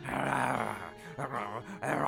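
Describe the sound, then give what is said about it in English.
A voice imitating a lion growling while chewing a dropped cloak: a low, rough, throaty growl broken into a few bursts with short gaps, moderately loud. “the lion picks it up and chews on it.”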